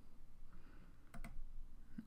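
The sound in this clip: A mouse click refreshing a page in Visual Studio Team Services: two faint, sharp clicks in quick succession over a quiet background of low noise.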